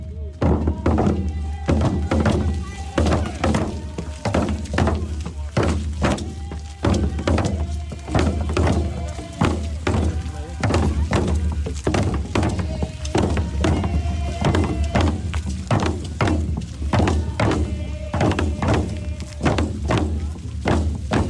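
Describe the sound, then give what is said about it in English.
Many people hammer a metal cross into the ground of a front lawn, producing a long, steady stream of sharp, loud metallic strikes in an uneven, overlapping rhythm. “That is the sound of a metal cross being hammered by many people into the ground where Warren Morris”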